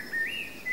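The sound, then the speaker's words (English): Bird calling in a town square, one short thin whistled chirp that wavers in pitch, faint above quiet background noise. “It's a real bird.”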